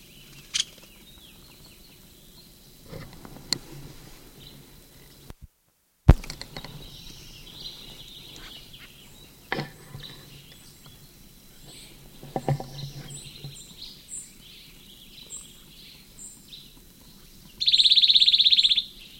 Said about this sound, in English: Nuttall woodpecker.